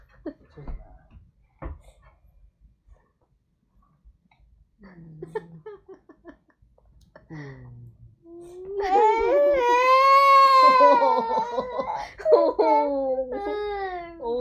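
A young child cries in a played video: scattered short hiccuping breaths and whimpers come first, then a loud, sustained, wavering wail with sobbing catches.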